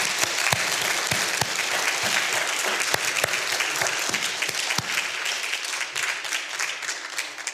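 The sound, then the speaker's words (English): Applause from a church audience welcoming new members: dense, steady clapping from many hands, with sharper individual claps standing out, running unbroken throughout. “Would you come and join me so we can welcome you? Let's give them a hand as they're coming.”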